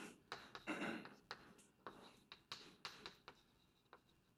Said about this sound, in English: So let me just write it out and I'll talk about it.